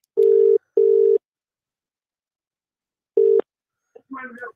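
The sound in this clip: Ringback tone of an outgoing telephone call: two steady, buzzing mid-pitched bursts in quick succession, a long silence, then a third burst, followed briefly by a voice.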